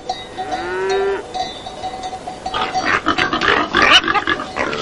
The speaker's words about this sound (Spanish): Los cerdos sozan comiendo bellotas, un rebaño de toros pase en el encinar.